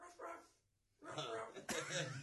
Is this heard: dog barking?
yes